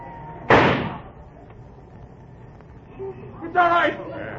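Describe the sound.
A single sharp, loud gunshot cracks out early, then fades into a low hush, with a voice speaking near the end.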